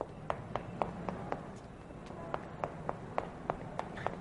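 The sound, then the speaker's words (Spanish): Footsteps of someone taking long strides up flights of stairs to a rooftop: many sharp, evenly spaced taps at a brisk running rhythm, with no voices. “De larga zancada sube los tramos de escalera hasta llegar a la azotea.”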